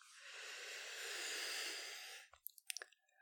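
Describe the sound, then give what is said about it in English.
A slow breath in: a long, steady, airy inhale lasting about two seconds, followed by a few faint mouth clicks in quiet. “I want you to just slowly breathe with me. Just breathe in”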